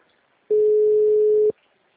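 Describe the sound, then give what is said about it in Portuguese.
A telephone ringback tone sounds while a call is being placed: one steady, mid-pitched beep lasting about a second, loud and alone, with no talking. “Eu tô ligando, mas tá parado.”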